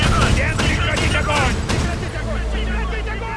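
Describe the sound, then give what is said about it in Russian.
Machine-gun fire aimed at a destroyer in a naval battle scene from a film: dense, rapid, continuous bursts of crackling shots, loud throughout, with a voice faintly mixed in. “К эсминцу протягиваются трассы очередей. Свои обстреливают!”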